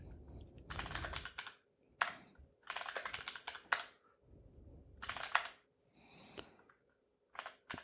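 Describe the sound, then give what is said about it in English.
Typing on a desktop computer keyboard while a Linux screen reader is being set up: quiet bursts of rapid keystroke clicks broken by short pauses, with no voices. “typing desktop”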